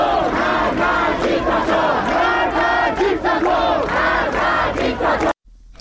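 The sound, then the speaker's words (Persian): Students at a sit-in protest at a university chant a slogan in unison. The loud crowd chant is rhythmic and unbroken for about five seconds, then cuts off abruptly. “همکنون دانشجویان در اونجا تحسنی و تجمع اعتراضی رو برپا کردن و در حال شعار دادن هستن. صدای یکی از شعارها رو میتونیم بشنویم.”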